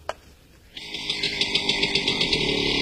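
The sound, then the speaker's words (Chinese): Motorcycles chase a taxi. After a sharp click and a brief hush, a motorcycle engine bursts into a loud buzzing roar, revving in many rhythmic throbbing pulses. “前面出租车，后面摩托车，摩托车之后还有一辆摩托车”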